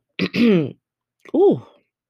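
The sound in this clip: Throat clearing from someone with a tickle in the throat: two rough, voiced bursts, the second shorter and coming after a pause of about half a second, heard alone without talk.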